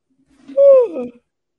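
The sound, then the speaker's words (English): A single yawn, a drawn-out voiced tone that sinks in pitch and tails off into a breathy finish, heard alone without talk. “excuse me, that's the East Coast yawn starting to kick in.”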